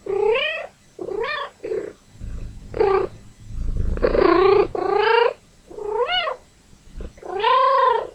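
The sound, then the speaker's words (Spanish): A cat that wants to play meows over and over, giving a series of short, high, wavering calls with brief pauses between them and a low rumble under a few. “Vamos a escuchar algunos gatos. Este es un gato que quiere jugar.”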